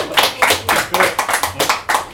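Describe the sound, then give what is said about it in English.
Audience applause at the close of an event, a short burst of brisk, rhythmic hand claps forming a quick run of sharp, fairly loud pulses. “Another round of applause to Kimberly”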